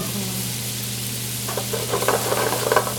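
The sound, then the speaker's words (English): Bacon and onions sizzle in a pan as a chef fries them in a restaurant kitchen. A steady hiss sits over a low hum, and crackles and spatters grow livelier toward the end. “McGee gave running commentary, while Chef Tori Miller fried up some bacon and onions.”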